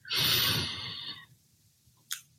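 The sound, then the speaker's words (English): A deep breath during a guided relaxation exercise: one long, loud rush of air lasting about a second, then quiet and a brief faint puff. “Close your eyes, take a deep breath,”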